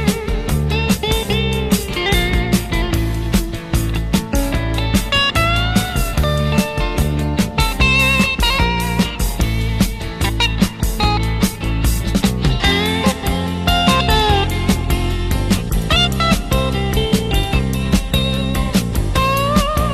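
An elegant electric guitar lead plays fluid runs of quick notes in a clean tone. It rides over a rock band with steady drums and bass, loud and continuous.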